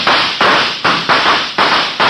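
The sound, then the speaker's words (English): Gunshots from more than one gun in an ambush: a quick, evenly spaced series of sharp, loud cracks, each dying away fast, with no voices. “Shots ring out, shots from more than one gun.”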